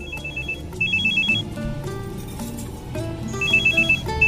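A telephone rings for an incoming call from the mother, sounding as three short trains of rapid, high electronic beeps separated by pauses, over steady background music.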